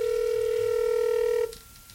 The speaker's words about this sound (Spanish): A ver, vamos a ver, aquí llegó otra llamada.